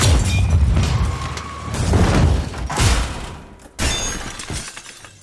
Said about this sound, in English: As wild gunfire rips the room apart, knocking pictures off the walls, cotton flies from furniture